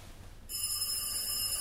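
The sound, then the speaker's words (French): An orange push-button telephone ringing, bursting in abruptly after a quiet moment with a bright, steady high-pitched electronic tone and a faint rhythmic warble that continues to the end. “Il sonne de nouveau. Le téléphone à touche orange qu'elle a trouvé dans l'une des innombrables brocantes de notre quartier.”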